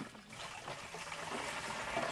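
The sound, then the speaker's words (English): Water pours into yellow jugs strapped to bicycles at a borehole in a drought-stricken area. A faint, continuous splashing rush runs through the whole clip without a break. “Kibwezi's chief, Benson Ngutu, watches as women pour water into yellow jugs strapped to bicycles”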